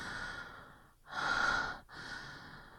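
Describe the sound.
Heavy breathing close to the microphone: long, breathy inhales and exhales that rise and fall in a slow, steady rhythm, with one loud, fuller breath in the middle and no talk.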